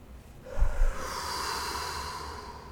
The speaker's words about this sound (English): if you'd like to join with me, we'll breathe in and out